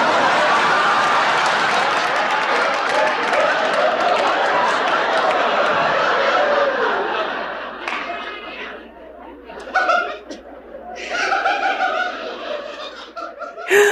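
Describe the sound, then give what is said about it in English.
An audience reacts to a line in a played scene with a loud, sustained wave of laughter and chatter. It then thins out, leaving scattered individual laughs and a few voices. “I'm literally just going to play basically her final line, and then the audience reacts to it like nothing you've ever seen before.”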